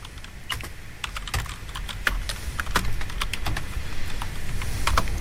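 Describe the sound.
Typing on a computer keyboard: many rapid, irregular keystroke clicks in a steady stream, fairly loud, with no talking.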